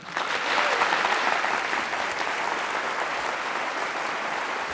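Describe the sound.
An audience at Cornell applauds to welcome a lecturer, a steady, dense wash of clapping that starts at full strength and holds for about five seconds.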